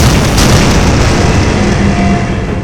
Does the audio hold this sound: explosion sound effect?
yes